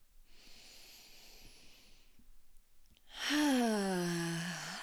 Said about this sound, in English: So go ahead and sink into your body. Take a few deep breaths